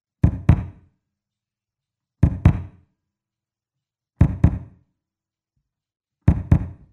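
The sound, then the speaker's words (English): A kick drum played in an apartment, sounding as deep, knocking thumps in four evenly spaced pairs of quick double beats, each pair about two seconds apart, with silence between. “I have a kick drum, which tends to sound like this when I play it.”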